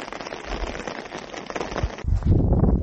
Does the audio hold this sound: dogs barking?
no

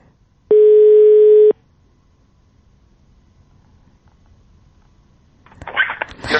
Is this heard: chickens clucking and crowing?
no

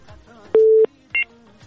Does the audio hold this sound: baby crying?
no

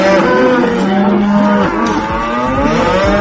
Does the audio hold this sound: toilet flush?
no

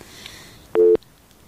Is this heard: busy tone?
yes

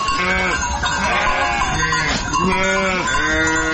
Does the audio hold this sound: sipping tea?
no

